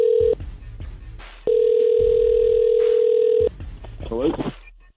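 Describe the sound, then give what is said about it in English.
A telephone tone sounds while a call is being placed: a loud, steady, mid-pitched electronic tone in two bursts, the second lasting about two seconds. A voice is briefly heard after the tones. “So dialing Ryan right now.”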